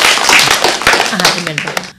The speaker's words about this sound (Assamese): বাৰু এতিয়া আমি অকণমানি জিজ্ঞাসাৰ কাৰণে ডাঙৰকৈ হাত চাপৰি বজাই